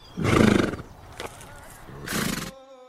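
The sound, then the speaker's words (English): A horse, one of a king's horses, neighs in two loud, harsh, breathy whinnies separated by a pause of about a second, with no voices over them. “One time, when the king was with his horses,”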